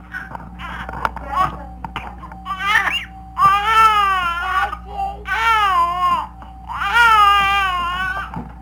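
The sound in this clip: A two-month-old baby crying in 1965, three long wailing bursts in the second half after some brief speech, over a steady electrical hum.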